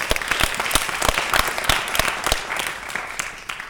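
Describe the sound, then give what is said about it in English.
Congregation applause during a church worship service: a sustained burst of many hands clapping, with sharp individual claps popping out of a dense, steady patter for the whole stretch, and no talking over it. “Put your hands together for the Lord.”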